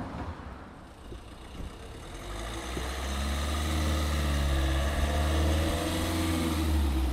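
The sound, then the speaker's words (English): A vehicle engine drives in at the gates of a new purpose-built residential complex, its low, steady rumble swelling after a few seconds and then holding loud and even to the end. “Roz and John are just driving in now”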